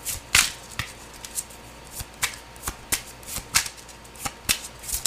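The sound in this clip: Tarot cards being shuffled: a series of crisp, papery riffles and slaps in a fairly regular rhythm, each burst sharp and bright, heard alone without talk.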